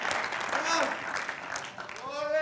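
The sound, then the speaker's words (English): A church audience claps its hands together during a sermon, a dense, lively patter of applause mixed with raised voices calling out. “Come on, somebody, clap your hands right now.”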